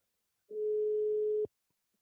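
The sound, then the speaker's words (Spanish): A single steady telephone ringback tone sounds while a call is being dialed. It is one clean mid-pitched beep lasting about a second, alone against silence. “ya le estoy marcando”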